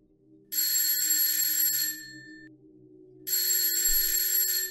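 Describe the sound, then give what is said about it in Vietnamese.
A school break bell rings in two long bursts of bright, metallic, electric ringing separated by a short pause, over a low steady hum. “Chuông giải lao vang lên.”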